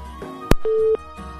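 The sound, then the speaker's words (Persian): A telephone line tone after a phone call is cut off: a sharp click followed by a single steady mid-pitched beep of about a third of a second, over faint background noise. “فکر میکنم تماس استاد عبدالقدوس هم قطع شد متاسفانه”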